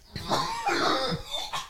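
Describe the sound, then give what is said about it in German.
A person coughs several times in a quick, harsh, raspy run, each burst loud and breathy with short gaps between. No talking. “Ja, Husten.”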